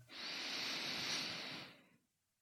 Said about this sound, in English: So take a nice deep breath through the nose, inhaling deeply,